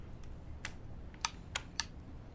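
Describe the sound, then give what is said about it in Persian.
A revolver hammer being thumbed back gives a few faint, sharp metallic clicks spaced irregularly over a low background hiss. “حالا با شستت چکشو باید بکشی عقب اینطوری.”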